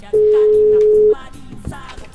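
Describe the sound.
A telephone tone sounds while a call is being placed: a single steady mid-pitched beep lasting about one second, with people talking faintly around it and after it.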